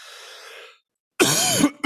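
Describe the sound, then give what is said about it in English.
A person coughing during allergy season: a faint breathy exhale, a short silence, then one loud, harsh cough burst and a brief second cough right after. “I told Kathy, I hope that I don't go into a coughing fit.”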